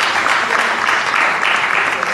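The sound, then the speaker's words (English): Audience clapping, a steady, dense patter of many hands that holds at an even, moderately loud level throughout. “Yeah, but don't clap too hard for her though.”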